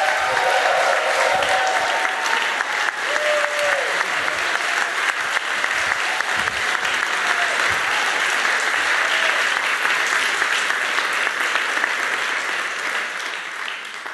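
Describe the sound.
Dense, sustained applause from a conference audience welcoming a speaker to the stage. It holds steady and loud for over ten seconds, then tapers slightly at the end.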